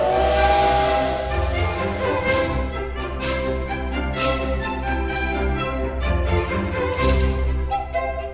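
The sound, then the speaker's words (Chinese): Steam whistle and hissing steam as a train departs: a loud, sustained, layered whistle tone runs throughout, broken by a few rhythmic bursts of steam, with no voices. “各位小朋友请注意，音乐故事湾列车即将启动，请到第一月台搭乘。”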